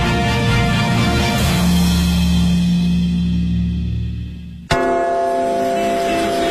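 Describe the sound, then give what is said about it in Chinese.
The great bell of a clock tower in London chimes in deep, ringing tones that sustain and slowly fade. A second loud stroke lands near the end and rings on with rich, lingering overtones. “大本钟的钟声记载着时间的流逝”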